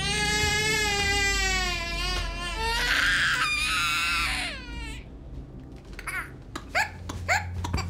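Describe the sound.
A baby cries in long, high, wavering wails for about five seconds, then breaks into short, choppy sobbing bursts with brief pauses between them.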